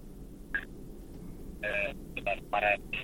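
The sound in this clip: A telephone rings as a listener's call comes in to a radio call-in show: several short, bright electronic tone bursts, one early and then a quick cluster, over a low steady hum.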